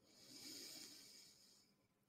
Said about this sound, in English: Again, breathe in.